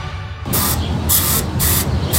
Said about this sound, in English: Well, I was cleaning the shed and I found termites, so I got this spray.